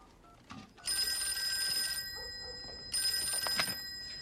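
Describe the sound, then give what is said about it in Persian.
A telephone bell rings in the Wheeler home: two long, trilling rings separated by a short pause, fairly faint and heard alone. “الو، منزل ویلر. آره، یه لحظه گوشی.”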